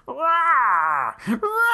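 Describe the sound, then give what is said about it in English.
A voice imitates Godzilla's roar from the 1970s Godzilla cartoon with one long, wavering, wail-like bellow, then a short second vocal burst after a brief break. “But again, I will again refer you all to the 1970s Godzilla cartoon where Godzilla sounds like this.”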